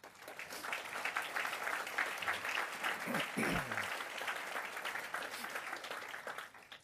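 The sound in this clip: An audience at a social justice oration applauds to welcome a guest, with even, sustained clapping that stays at a steady level for nearly seven seconds before easing off at the very end.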